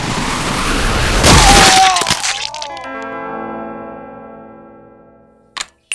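Gunfire in a wartime radio drama: a dense burst of loud cracks and booming blasts, then lingering ringing tones as it fades, with one more sharp crack right at the end.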